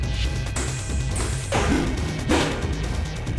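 A heavy charge attack lands in a video game: a couple of loud crashing impacts burst out over a continuous bed of game sound.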